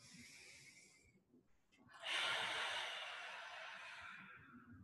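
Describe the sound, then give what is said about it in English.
A deep, centering breath taken slowly in and then let out in a long, airy exhale. The sound is soft and quiet, and the out-breath swells and then fades gradually. “So on the count of three, just take a nice deep breath in and out.”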